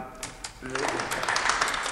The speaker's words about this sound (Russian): Это аплодисменты, которыми служащие банка приветствуют Шипучина.